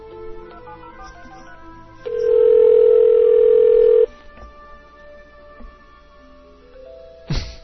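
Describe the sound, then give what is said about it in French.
A telephone dial tone and number dialing: a steady tone holds for about two seconds over faint background tones, followed by a few brief, quiet key blips and a short louder burst at the end. “On compose ici live.”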